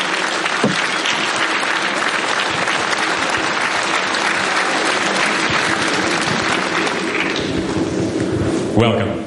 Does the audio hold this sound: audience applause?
yes